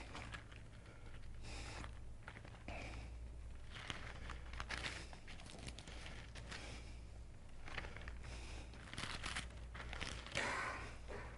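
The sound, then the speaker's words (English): Soft rustling and crinkling of paper Bible pages being turned by hand, a series of irregular brushing and flapping sounds. Faint and unhurried, with no talking over them. “I don't know why I insist on using a paper Bible. It takes a long time. But here it is.”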